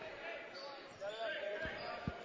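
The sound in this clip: A basketball is dribbled on a court during a game, giving two low bouncing thuds near the end. The bounces are faint and sit under talk.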